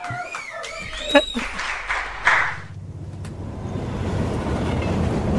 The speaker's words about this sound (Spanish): ¿Qué estación es esta? ¿A dónde va este tren?